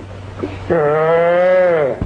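A male goat gives a single loud, wavering bleat lasting over a second, a nasal harmonic cry that stops abruptly, preceded by a few faint low sounds.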